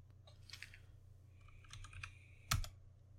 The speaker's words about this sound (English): I just typed random letters.